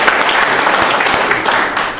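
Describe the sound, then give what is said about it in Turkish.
Loud audience applause greets a group at an event: a thick, continuous wash of clapping that holds for two seconds, with no talk over it. “Alkışlayalım. Müthiş bir alkış.”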